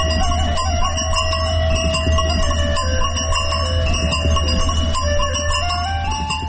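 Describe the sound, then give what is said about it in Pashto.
Bells jingle on the necks of a grazing flock of sheep at the foot of Zarkashan mountain in Muqur district, Ghazni, a steady tinkling of many bright overlapping tones that rings on without pause and without voices. “د رمې د پسونو د غاړې له ځنګولو څخه خوږه شړنګه خېځي.”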